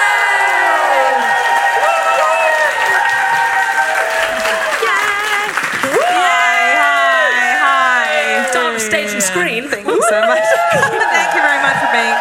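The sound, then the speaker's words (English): A live audience at the Roundhouse cheers, whoops and claps to welcome a comedian to the stage. The sound is loud and sustained, with many shrill voices rising and falling over the din. “please give everything, stamp your feet, whoop, holler, and please welcome to the Roundhouse stage the incredible Rose Matafeo!”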